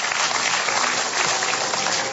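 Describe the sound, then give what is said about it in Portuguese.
An audience claps together during a church service, a dense, continuous patter of many hands that holds at an even level throughout. “E exaltem o Senhor Jesus com as nossas palmas.”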